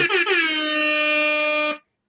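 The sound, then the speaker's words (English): A hip hop air horn sound effect blares in one loud, buzzy, sustained blast of just under two seconds, opening with a couple of quick stutters before holding steady and cutting off. “So hip hop air horns to you.”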